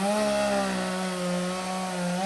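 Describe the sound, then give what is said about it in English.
A chainsaw cuts up the remains of a magnolia tree, a continuous loud buzzing drone with a rich harmonic whine that holds nearly steady, its pitch drifting only slightly throughout. “used a chainsaw to cut up what was left of his parents' stately magnolia tree.”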